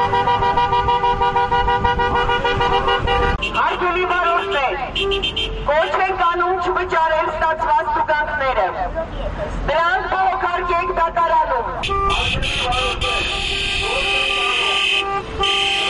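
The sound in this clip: Car horns honk during a protest motorcade of dozens of cars ending near Yerevan's Erebuni Museum. Loud toots, some sustained and some short, overlap against engine noise and a babble of voices.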